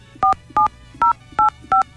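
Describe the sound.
Five crisp telephone keypad tones as a number is dialed for a call, each a short steady beep separated by brief even gaps, loud against a faint low background hum.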